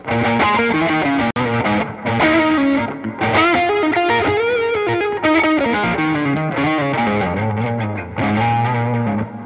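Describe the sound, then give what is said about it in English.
Overdriven electric guitar played through the first side of a Duelist drive pedal at low volume, giving a bluesy, breakup-style tone. Sustained distorted chords ring out in several phrases separated by brief gaps, with no voices. “So this is what these sound like. So the basic sound. And then this is the first side of the Duelist.”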